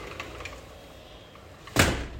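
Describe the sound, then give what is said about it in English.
A house window is slid shut with one short, fairly loud thud near the end, after a stretch of quiet room noise. “I think I should close my house windows so that you can hear me better. Just a second.”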